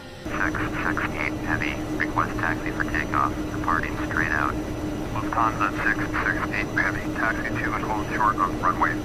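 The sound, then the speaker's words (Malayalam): A steady airplane engine drone from a 24-year-old DHL cargo plane, an Airbus A300, readied for a flight to Bahrain. The low, even hum runs throughout beneath a voice talking. “November ഇരുപത്തിരണ്ടാം തീയതി വിമാനം ബഹ്റിനിലേക്ക് പറക്കാൻ തയ്യാറായി”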